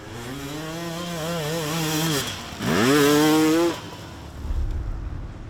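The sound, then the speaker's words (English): A motorcycle engine starts and stalls during a race. The engine revs with a wavering, uneven pitch, then falters and drops away. It catches again with a sharp rising rev, holds briefly, then dies out, leaving a low rumble. “as soon as I press the bottom, my bike start like starting, but then stalling again.”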